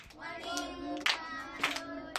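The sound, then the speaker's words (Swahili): Children's voices with a few sharp hand claps, as children applaud their teacher; the claps stand out briefly against the soft, fairly faint voices. “Mpigie makofi mwalimu.”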